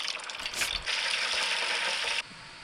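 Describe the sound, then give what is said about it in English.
Chicken wings deep-frying in hot oil at 350 to 375 degrees until crispy. A dense, steady hiss and sizzle of bubbling oil runs throughout, then drops off abruptly near the end. “Now we fried them for about 5 minutes at 350 and pulled them out. We're going to let them rest for a little bit, then go back in at 375 till they get nice and crispy.”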